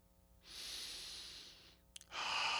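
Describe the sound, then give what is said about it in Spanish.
Deep breathing by a person during a guided relaxation exercise: one long, soft, breathy breath is followed by a brief quiet gap and then a second breath starting. The sound is airy and faint, with no talking. “Respira profundo.”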